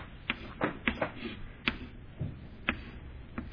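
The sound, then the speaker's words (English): A marker drawing a church on a board gives faint, dry ticks and scratches, several sharp taps at an uneven pace over a soft steady hiss. “So even though Rome was supposed, so let me draw one more thing, a church.”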